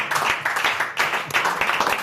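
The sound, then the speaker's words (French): Audience applause at a comedy stage show: moderate, dense clapping that surges in a few waves with brief dips between them, with no talk over it. “N'applaudissez pas ça, voyons.”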